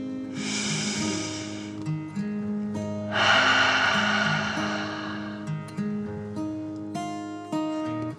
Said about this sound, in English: Take another deep dragon breath and out.